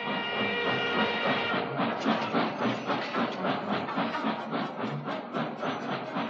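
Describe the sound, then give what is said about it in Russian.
A train pulling away, its wheels clattering on the rails in a steady, loud, rhythmic clickety-clack that sets in after about two seconds and continues to the end. “Поезд тронулся, увозя с собой отца Федора в неизвестную даль.”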